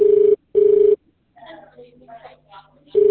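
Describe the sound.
A phone rings with a steady buzzing tone, two short bursts followed by a pause. A voice speaks briefly in the gap, then the ringing starts again at the end.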